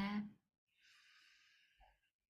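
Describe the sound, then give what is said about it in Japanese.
During a meditation retreat session, a slow, soft breath is drawn in through the nose after a brief bit of voice, a faint airy hiss lasting over a second before fading into quiet. “ゆっくりともう一度鼻から呼吸をして”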